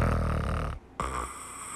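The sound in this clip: Snoring from someone who has just fallen asleep: a rough, rasping snore in two drawn-out phases with a brief pause between them.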